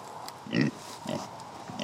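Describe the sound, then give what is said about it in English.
A pig on a small central Illinois farm that raises soybeans, cows and pigs gives a few short, rough grunts, spaced apart over a quiet background. “Come here, pig.”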